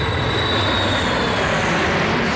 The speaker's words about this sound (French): C'est une chaussette pilotant un avion qui passe nous chercher, c'est bien ça?